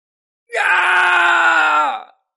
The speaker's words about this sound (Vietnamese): Truyền đến tiếng kêu la thảm thiết, thanh âm truyền đi rất xa